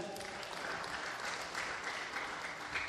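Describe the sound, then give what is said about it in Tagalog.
Congregation in a church service clapping for God, a steady, dense wash of applause that holds at an even, fairly soft level for the whole stretch without a clear break. “Sige, palakpakan nga natin mo si God.”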